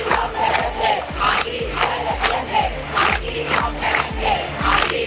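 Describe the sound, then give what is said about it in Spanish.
Loud chanting from a large crowd at a street protest outside a luxury penthouse in a Madrid neighbourhood, many voices shouting together in a steady repeating rhythm with a pulsing beat throughout. “Es uno de los cánticos que se han escuchado esta tarde en la manifestación organizada frente al ático de lujo que compró la Comunidad de Madrid en el barrio de Chamberí.”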